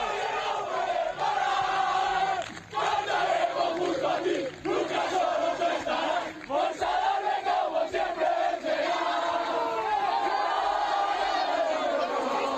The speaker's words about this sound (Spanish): Mira, este es el sonido de la celebración del equipo después de ganar al Pontevedra y remontar el pasado domingo